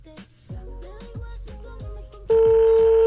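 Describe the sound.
A telephone call is placed: soft tonal sounds lead into a steady electronic tone that begins partway through and holds to the end.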